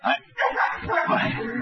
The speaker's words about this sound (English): let me see that dog.